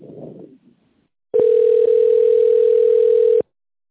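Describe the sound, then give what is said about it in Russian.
Telephone line tone while a call is transferred to an operator: a loud, steady single-pitch tone starts abruptly, holds for about two seconds and cuts off sharply, preceded by a brief faint murmur. “Оставайтесь на линии. Звонок переводится на оператора.”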